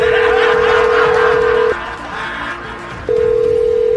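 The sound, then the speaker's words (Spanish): A telephone line gives a loud, steady dial tone that cuts out for about a second and a half, leaving quieter background noise, and then resumes. “Vamos a marcar.”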